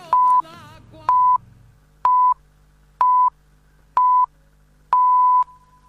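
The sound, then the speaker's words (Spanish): An Argentine radio station's hourly time signal sounds six steady mid-pitched pips, one per second, with the final pip held longer. Each pip is clean and loud, and a voice fades out just before the first. “Sonó el top y en Radio 750”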